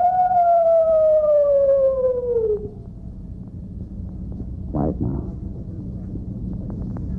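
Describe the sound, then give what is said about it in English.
A person imitates a coyote howl: one long, loud wavering tone that slides slowly downward for about two and a half seconds, then breaks off, leaving quieter background with a brief noise afterward. “give him a coyote call”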